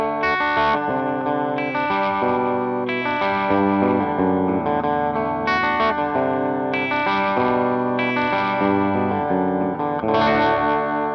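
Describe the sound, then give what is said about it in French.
A clean-toned electric guitar on its bright treble pickup plays a sequence of ringing chords and picked notes. The attacks are crisp and regular and the notes sustain between them, with no voices. “Écoutez, ça sonne parfaitement bien en son clair cette affaire-là.”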